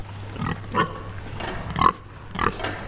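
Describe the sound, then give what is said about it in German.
Five-week-old pink piglets on a farm converted to organic, near their stall in cold winter air, give a few short, soft grunts against a low background hum. “Die Ferkel, die jetzt hier gerade rein und raus geflitzt sind, sind so gute 5 Wochen alt.”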